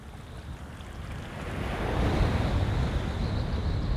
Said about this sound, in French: La prise de son au bord de mer, ça demande beaucoup, beaucoup de temps sur place